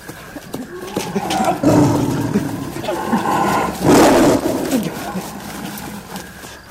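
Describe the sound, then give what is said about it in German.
A tiger roars in deep, rough, swelling bursts, two of them louder than the rest, over a dense rumbling noise. “Der Tiger gab auf. Jedenfalls war er nach einiger Zeit nicht mehr zu hören.”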